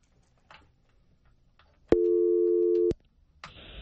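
A telephone line tone as a caller is put through to a radio call-in programme: a single steady electronic tone lasting about a second, set between faint clicks and followed by a patch of hissy line noise.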